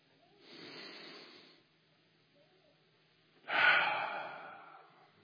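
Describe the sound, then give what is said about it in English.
A person's deep breath taken outdoors: a soft, airy inhale, a quiet pause, then a louder, longer breathy exhale that slowly fades. “You step outside and you breathe deeply.”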